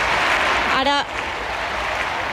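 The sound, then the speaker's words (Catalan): Big applause from a crowd waiting for the Pope, a thick, continuous roar of clapping at steady loudness that eases slightly after the first second. “Ara uns grans aplaudiments, però els càntics sí que no els sentíem amb nitidesa.”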